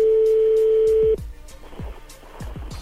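A telephone number being dialed: a steady dial tone holds for about a second and then cuts off, followed by a run of short, evenly spaced dialing blips and clicks.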